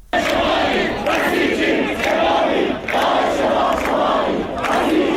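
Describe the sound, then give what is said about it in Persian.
A very large protest crowd at Tabriz University of Medical Sciences chants in unison, loud shouted phrases repeating in a steady rhythm with brief dips between them. “صدای یکی از اعتراض‌ها رو در دانشگاه علوم پزشکی تبریز که حاضران در اون بسیار پرتعداد دیده میشن میتونیم بشنویم.”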